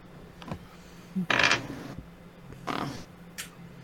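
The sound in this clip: Dice rolling at a tabletop role-playing game session, with new dice: a few brief, faint hard clatters and taps, the loudest burst near the middle, separated by quiet.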